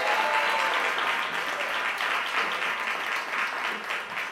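Audience applauding a presider at a gathering, a steady, dense round of clapping that starts loud and eases slightly toward the end.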